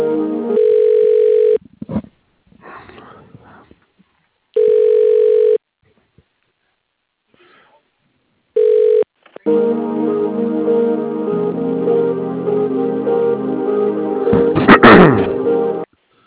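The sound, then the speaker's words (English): A telephone line connects to an office extension: three electronic tone bursts of uneven length are broken by silences and clicks, then a crackly open line follows with a brief loud burst of noise near the end. “Please wait while I try that extension.”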